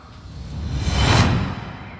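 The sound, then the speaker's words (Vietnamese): A cold, dark wind gust conjured by a magic spell, a breathy whoosh that swells to a peak near the middle and then fades away, with no voices. “Cao Biện vung phất trận lên một phát, lập tức đã xuất hiện một cơn gió lạnh khủng khiếp ập tới.”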